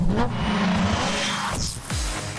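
A race car engine drones loudly and continuously as the car pulls out onto a race track. The steady motor tone carries on alone, with no voices over it.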